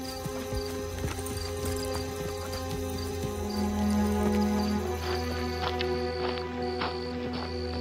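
Horses' hooves clip-clop in a steady run of many even beats, moderately soft, over a sustained musical backdrop.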